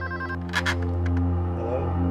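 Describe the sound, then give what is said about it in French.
A telephone rings in the middle of the night, around half past two, with a steady electronic tone that holds through the whole clip at an even level. “le téléphone des Smith sonna”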